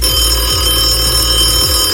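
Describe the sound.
Telephone ringing: a continuous, even electronic ring that holds steady for two seconds with no talk over it.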